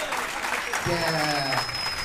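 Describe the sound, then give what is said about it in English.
Audience applause at a stand-up comedy show. It is a steady, loud wash of clapping, and a voice speaks over it partway through. “Give him a big round of applause.”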